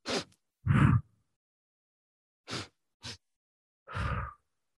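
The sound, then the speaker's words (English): Breathing exercise: two short, sharp sniffs in through the nose, then one longer breath out through the mouth. The sequence repeats, giving five distinct breath sounds with silent pauses between them. “Breathe in for 2 strokes in your nose and 1 stroke out your mouth. So it would sound like this.”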